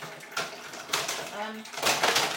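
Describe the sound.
Plastic containers and lids being rummaged in a cupboard make a few hollow, clattering knocks and scrapes in irregular bursts at moderate loudness, with no talk over them.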